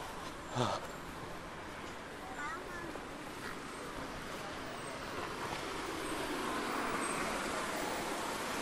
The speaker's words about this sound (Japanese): びっくりした。車が僕のすぐそばを通った。ホンダアコードですね、今これがね。